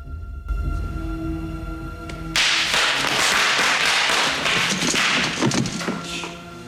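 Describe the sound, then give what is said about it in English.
Bubble wrap popping underfoot on a storeroom floor: a low steady hum, then a sudden dense burst of crackling pops that carries on unevenly. “Ace makes his way gingerly into a storeroom filled with old boxes, but doesn't notice a sheet of bubble wrap on the floor.”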